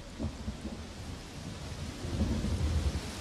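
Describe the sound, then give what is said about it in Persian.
Heavy rain pours in a rainforest with low rolling thunder. The rain is a faint, steady hiss, and the deep rumble swells and grows stronger toward the end, with no voices. “هنگام بارندگی که با این شدت تصویر برداری عملا ناممکن میشه.”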